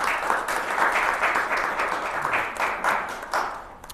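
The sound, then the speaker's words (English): Audience applause for a speaker introduced at a public policy panel discussion: steady, dense clapping from many hands lasting about four seconds and thinning slightly at the end. “Please may you give him a hand.”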